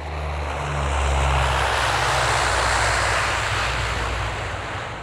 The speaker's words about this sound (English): We have landed at Jan Smuts International Airport, Johannesburg. Please remain in your seats.